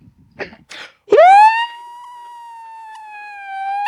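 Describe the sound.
An ambulance siren wails after a few short knocks: one loud tone sweeps sharply upward, then holds a long, steady, slightly wavering pitch that grows a little louder near the end.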